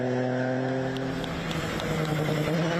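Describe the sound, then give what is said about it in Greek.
A rally car engine at full throttle on a special stage of the Acropolis Rally in Arcadia, a fairly faint, steady, droning harmonic note that holds its pitch throughout. “ένταση και τέρματα γκάζια. Το Ράλι Ακρόπολης διέγραψε συναρπαστικές εικόνες που έκαναν το γύρο του κόσμου με τις ειδικές διαδρομές στην Αρκαδία.”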